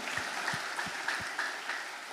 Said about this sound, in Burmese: ဘုရားရှင်လက်ခုပ်တီးချီးမွမ်းရဟာလေလုယာ